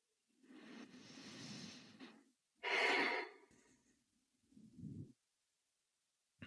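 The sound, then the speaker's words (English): One slow, deep breath taken alone: a long, soft inhale, then a stronger, breathy exhale, followed by a brief, faint puff of air. Quiet throughout. “So one deep breath.”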